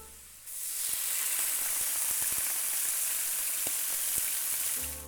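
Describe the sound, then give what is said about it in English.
Tofu sizzling as it fries in a pan, in Chinese cooking: a loud, steady, hissing sizzle with scattered sharp crackles and pops that starts abruptly and runs on without pause. “This is the sound of frying tofu.”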